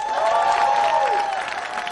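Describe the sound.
A studio audience applauds and cheers for the house band, a dense wash of clapping with sustained musical tones running beneath it, steady and then easing slightly toward the end.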